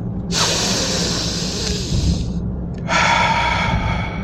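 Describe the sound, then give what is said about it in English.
Two long, loud, airy breaths, a big inhale followed by an exhale through the mouth, each a steady hiss lasting about two seconds with a short pause between them and no talk. “three big breaths. Here we go. First of three. Go. Exhale through the mouth. Second one. Go.”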